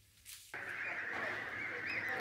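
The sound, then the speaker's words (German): Many geese honking and cackling together in a goose barn on a farm. A dense, loud, continuous chorus breaks in abruptly after a brief quieter moment and holds steady to the end. “Halligalli im Gänsestall.”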